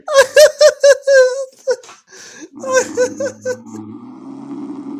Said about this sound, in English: Depends on how long his snores are. They're getting kind of long.